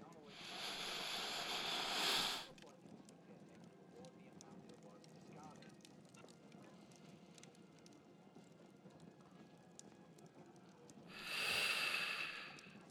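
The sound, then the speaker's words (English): Deep breaths in and out: two long, airy breaths, faint overall and separated by a long quiet gap. “Alright, take a deep breath for me.”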